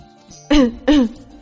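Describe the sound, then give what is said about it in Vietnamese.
A man gives two short, dry coughs in quick succession, each a brief throaty burst over a faint, steady background. “Bạch Ngọc Đường đi phía trước ho khan một tiếng.”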